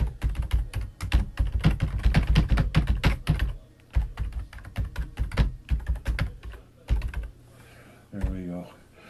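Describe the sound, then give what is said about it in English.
Typing on a computer keyboard while entering a web link: a dense, fast run of clicking keystrokes that thins into slower, scattered taps toward the end. “There's a link here. I'll type it in.”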